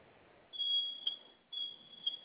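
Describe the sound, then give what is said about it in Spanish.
A home alarm system beeps twice, each beep a long, high-pitched tone ending in a short tick, separated by a brief gap over faint background hiss. “Sonó su alarma y vamos a ingresar su clave de alarmado que acaba de registrar.”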